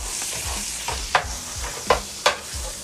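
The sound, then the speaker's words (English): Chorizo fries over medium heat in a pan for a simple breakfast, with a steady hiss of sizzling and a few sharper scrapes as it is stirred. “Then we're gonna cook it up a bit, so we gotta turn it up to about a medium heat. And back to the chorizo, man. You gotta keep attacking that, dude. You can't let it slip.”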